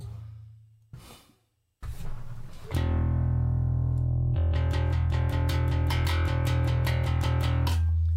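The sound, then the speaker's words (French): Electric bass guitar played through a clean effects preset, opening with a few low sustained notes, then a steady held tone, then a fast run of evenly repeated plucked notes. “Moi j'aime bien la clean bass. Voilà, s'il veut bien la charger.”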